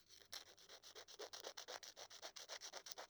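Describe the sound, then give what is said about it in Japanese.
A polishing rub smooths fine unevenness on a surface: many faint, even strokes repeat in a steady back-and-forth rhythm, with no talk. “細かいデコボコが滑らかになるようにゆっくりと磨いていきます。スリスリスリスリ、”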